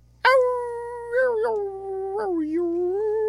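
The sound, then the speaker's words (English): A coyote howl: one long, loud sustained wail that starts abruptly and wavers up and down in pitch, heard alone over a faint steady low hum. “That was a coyote.”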